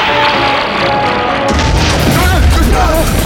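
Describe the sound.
A science-fiction audio drama battle scene, with weapons firing in dense, noisy bursts and heavy low booms. Voices are heard over the din.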